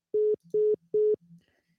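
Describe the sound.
A telephone busy tone sounds after the caller hangs up: three evenly spaced, steady low beeps of equal length, followed by a fainter tail.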